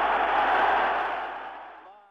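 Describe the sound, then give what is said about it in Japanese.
A vast stadium crowd of about 197,000 chants the name Nakano, a huge roaring wash of massed voices that holds strong at first and then gradually fades away toward the end. “しばらくこの歓声をお聞きください。中野コールです。”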